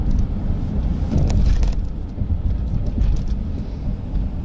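A car drives straight ahead, its engine and road noise forming a steady, continuous low rumble that stays even throughout, with no talking.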